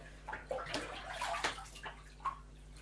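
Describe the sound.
Bath water sloshes and splashes as a child lies back in the tub to wet their hair before a shampoo: irregular wet swishes and gurgles, moderately loud, with no voices.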